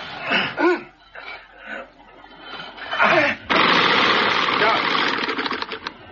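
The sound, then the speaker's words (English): A boat propeller, stuck in sand, keeps turning: voices talk first, then a loud, steady mechanical whirring churn starts abruptly and runs on, with rapid ticking pulses toward the end. “The propeller was caught in the sand. It had a few revolutions still to run.”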